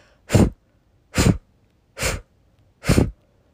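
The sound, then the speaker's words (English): Forceful breathing-exercise exhales: four sharp blow breaths at an even rhythm, each a loud, breathy rush of air standing alone against near silence. “Take a clearing breath. Repeat again. 5 more blow breaths.”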